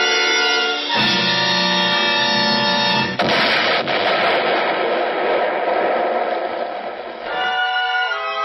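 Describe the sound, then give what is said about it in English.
A spaceship exploding: a droning hum gives way to a sudden loud blast partway through, then several seconds of harsh, roaring noise before a steady hum returns. “The concussion cut the spaceship up the side like a giant can opener.”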